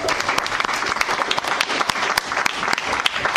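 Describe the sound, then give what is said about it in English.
Comedy club audience in Chicago applauding to welcome a comedian to the stage, a loud, dense burst of clapping with sharp individual claps standing out throughout, sustained at an even level. “Please welcome to the stage, Joe Larkin!”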